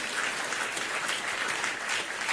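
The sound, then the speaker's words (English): Congregation clapping during a church service: dense, steady applause that holds at an even loudness throughout, with no voices over it. “If you are excited, why don't you clap and bless God?”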